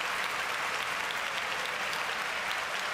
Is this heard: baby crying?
no

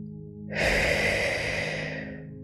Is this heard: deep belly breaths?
yes

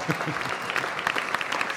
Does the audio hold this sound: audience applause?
yes

